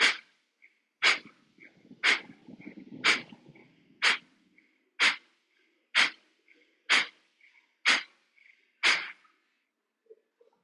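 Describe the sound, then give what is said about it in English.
Ten forceful, sharp nasal exhalations of Kapalabhati yogic breathing, evenly spaced about a second apart. Each is a short hissing puff, alone in otherwise quiet surroundings. “Close the thumb and forefinger, preparing for Kapalabhati. 10 pumpings. Inhale and begin.”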